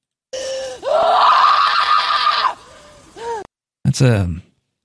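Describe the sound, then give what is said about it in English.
A woman's short scream from a film: a loud, shrill cry held for about two seconds that trails into softer groaning sounds, followed after a brief pause by a short, sharp gasping burst. “This is a short scream by Samara Weaving.”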